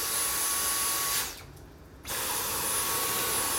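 A vacuum cleaner runs with a loud, steady whining roar that drops away briefly near the middle, then resumes at full strength.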